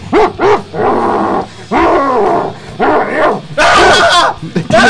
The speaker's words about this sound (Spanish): ¡Tiene rabia ese perro!